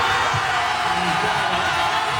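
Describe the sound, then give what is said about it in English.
A crowd of hundreds of Ghana football fans cheers and celebrates a scoreless draw with England in Foxborough, making a dense, continuous roar of voices with scattered whoops and shouts that holds steady throughout. “That's the sound of hundreds of Ghana fans celebrating as the Black Stars secured a scoreless draw with England”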